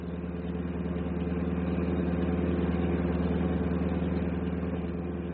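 A bus engine runs while the bus is driving, giving a steady, loud, low-pitched drone with a constant rumble throughout and no talking.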